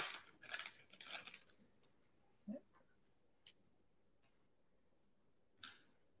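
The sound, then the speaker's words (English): Crinkly wrapper rustling as a pack of hockey trading cards is torn open, a dense burst of crackling over the first second and a half, followed by a few soft, isolated ticks and taps in near quiet. “Let me see if this is the same card. See? I'll open up one more while we're doing this.”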